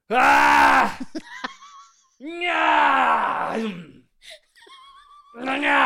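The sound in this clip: A person imitates a growling noise with their voice, making long, strained, groaning rasps. These come in a few drawn-out bursts, broken by short pauses and small breathy sounds.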